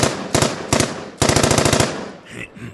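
A rapid gunfire sound effect: a few short, loud bursts of rattling shots, then a longer sustained burst of rapid repeating cracks that gives way to a fading tail.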